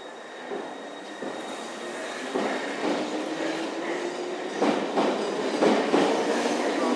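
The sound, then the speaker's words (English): A London Underground Piccadilly Line train pulls out of a station with a steady, broad rumble and rhythmic clacking of wheels over the rails, the noise building slightly as it gathers speed. “Yep, it's leaving. Just about got it in before they closed the doors. And there's a Piccadilly Line train behind me.”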